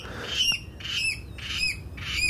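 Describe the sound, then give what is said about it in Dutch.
Water rail calling from a reed bed, four loud, evenly spaced piglet-like squealing calls, each a harsh nasal burst repeated in a steady rhythm. “Huh? Wat is dat? Is dat, dat, is, dat is geen karakiet? Nee, nee, dat is geen karakiet, dat is een waterral.”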